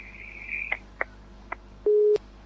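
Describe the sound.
Telephone tone after a caller's line dropped: a faint high whistle, a few sharp clicks, then one short, steady, mid-pitched beep.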